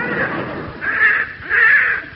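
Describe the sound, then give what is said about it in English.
Harsh cawing from a young crow with an injured leg: a few rasping, raucous calls in close succession, fairly loud and alone. “it's a young crow that Alfie spotted”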